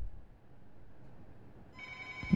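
A telephone starts ringing after a stretch of faint, quiet hiss, with a bright, steady electronic tone that runs for under a second to the end.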